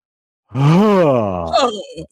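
A single long, forceful voiced exhale, a groan-like 'huh' pushed out while driving the elbows back during a yoga breathing exercise. It rises slightly in pitch, then falls and trails off breathily.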